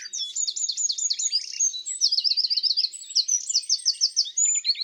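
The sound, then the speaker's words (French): Wren song with a nightingale singing in the background: rapid, high-pitched trills and chirps run continuously and densely, with overlapping phrases throughout. “Nous avons entendu le chant du troglodyte,”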